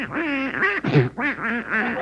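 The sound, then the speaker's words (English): A duck quacks in a rapid, lively series of nasal, bending calls, loud and without a pause. “Get out of my bed, you silly-looking duck. Out.”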